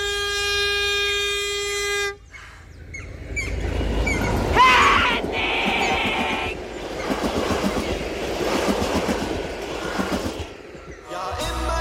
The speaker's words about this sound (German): Den Zug! Stoppen Sie den Zug!